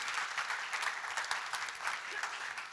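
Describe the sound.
Applause for a volunteer welcome team at a gathering: many hands clap in a dense, steady roar that runs the whole way through without a break.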